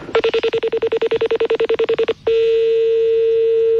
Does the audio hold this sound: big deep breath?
no